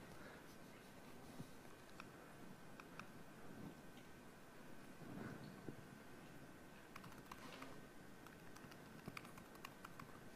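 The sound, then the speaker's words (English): Faint typing on a computer keyboard as a password is entered: many light, irregular key clicks scattered across a quiet, steady background. “hang on a sec, I have to type my password right. I just changed it. I can't do it by memory yet.”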